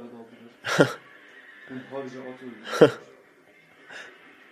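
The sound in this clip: Horse neighing and whinnying on a hillside, with two loud, sharp bursts about two seconds apart and softer, tonal calls between them.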